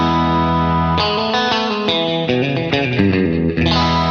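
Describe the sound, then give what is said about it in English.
Bright Stratocaster electric guitar played through a stereo chorus effect: a shimmering sustained chord opens, then a run of clean individual notes with a wavering chorus sheen, and a full chord rings out again near the end. “Let's hear it. Yeah this is like usually I use it stereo chorus”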